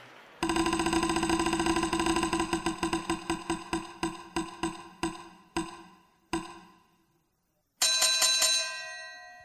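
A spinning prize wheel clicks with bright, ringing metallic ticks. They come in a rapid stream at first, then slow to widely spaced single ticks before stopping. After a short silence, a brief burst of higher, quicker ticks follows.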